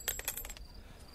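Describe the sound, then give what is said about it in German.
A gold coin drops and bounces in a quick run of bright metallic clinks, several close together, followed by a thin high ring that fades out; faint overall. “Ein Goldstück. Oh, Dank, edle Herren, Dank. Ein ganzes Pfund”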